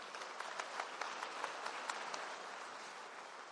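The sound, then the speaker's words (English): An audience applauds to welcome two speakers at a presentation: dense, steady clapping, fairly faint, with no talk over it, continuing evenly for the whole stretch. “Please join me in giving a warm welcome to Katie and Moira.”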